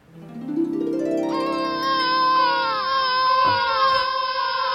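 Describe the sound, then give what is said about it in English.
An infant crying: a loud, continuous wail that climbs in pitch at the start, then holds a high, sustained, wavering tone without a break. “Babies. That's right, everybody. Oh, that noise. That sound stops being funny.”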